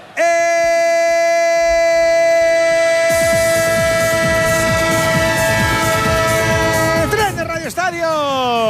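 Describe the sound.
A train horn sound effect: a loud, sustained multi-tone horn blast that rises in intensity and joins a rumbling rail clatter partway through. The horn's pitch then slides downward near the end.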